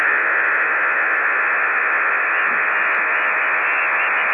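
Radio jamming interference, a loud, unbroken band of rushing hiss held steady throughout without pauses or shifts.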